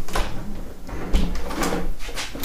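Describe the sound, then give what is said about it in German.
Windows in a home are shut one after another, giving a few dull clunks and knocks over a quiet background. “Das heißt, ich schließe jetzt mal alle Fenster.”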